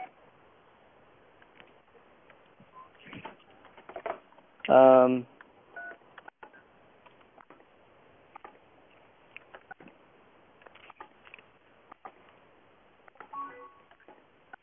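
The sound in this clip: Telephone keypad dialing tones sound while someone calls a BBS phone line: one brief, loud cluster of touch-tone beeps, with fainter beeps elsewhere and quiet voices and clicks in the background.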